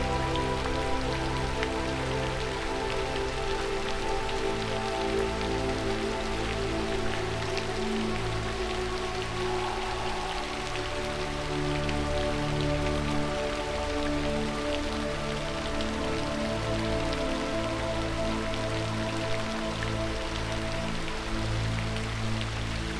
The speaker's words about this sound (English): but you still focus on the pink rain. Breathing deeply.